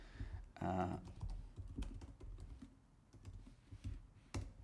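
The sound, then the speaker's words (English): Text being typed on a computer keyboard gives a quiet, irregular patter of plastic key clicks, with some brief denser bursts. “You can actually type stuff in, which is kind of nice.”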